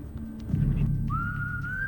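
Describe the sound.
A person whistles a film theme melody. After a noisy start, one clear, sustained high note holds steady for almost a second and climbs slightly in pitch.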